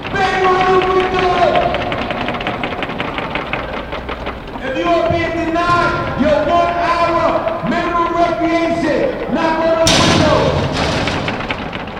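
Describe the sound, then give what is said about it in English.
Inmates bang on the windows of a detention center in many loud, rapid, rhythmic knocks that go on without a break, while voices shout over the pounding throughout. “That's the sound of inmates inside Metropolitan Detention Center banging on the facility's windows in response to protesters asking about the conditions.”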